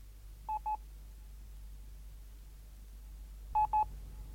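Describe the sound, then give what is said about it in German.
A telephone number being dialed on a touch-tone phone for a call to the police: two pairs of short, quick beeps about three seconds apart, fairly quiet over a low hum. “Ich werde sofort anrufen.”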